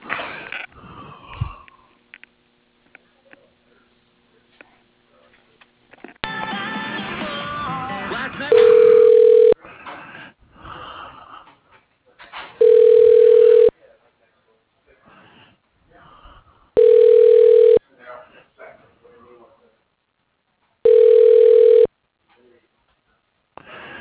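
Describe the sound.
Telephone ringback tone during a call transfer: four steady, even rings about a second long, spaced a few seconds apart, following brief talk and a stretch of muffled noise.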